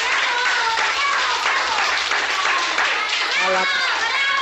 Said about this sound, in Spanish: Quiero daros las gracias por lo bien que os habéis portado y gracias con un aplauso muy grande